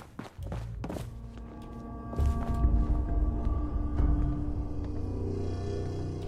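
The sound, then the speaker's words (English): Footsteps running upstairs in a video game: a few sharp, heavy thuds at the start, then a dense, continuous rumble of quick steps that stays loud to the end. “All right, yeah, let's go run upstairs.”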